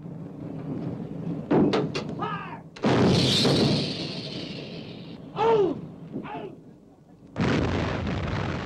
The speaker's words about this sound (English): Shoot! There's an eruption of water close to the U-boat. Morel's crew reload the gun.